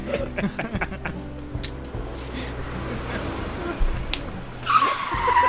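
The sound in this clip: A car crash sound effect with skidding tires: a low engine rumble carries a rough scraping skid that builds, then a high sustained tire squeal near the end.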